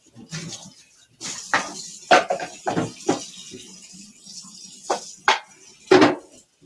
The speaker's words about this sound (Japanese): ガタガタガタガタ、もう今焼きそばも終わったんで、あの、今ちょっとね、片付けをしております。